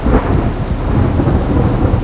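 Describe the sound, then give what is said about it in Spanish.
A close thunderstorm at night: loud, continuous rolling thunder over heavy rain hissing down, a dense roar that stays strong throughout with no voices. “Es una noche de tormenta, tan cercana que la luz del rayo y el estruendo del trueno casi se superponen haciendo temblar las paredes.”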